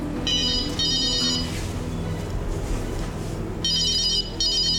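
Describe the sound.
A telephone rings in bright electronic trilling bursts. Two close bursts come first, then a gap of about two seconds, then two more. The rings are loud and even, with no talk.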